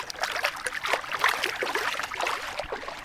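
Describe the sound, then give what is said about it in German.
Feet paddle and splash in water, making continuous irregular sloshing and gurgling with no distinct pauses. No one speaks. “Planschen Sie mal ein bisschen.”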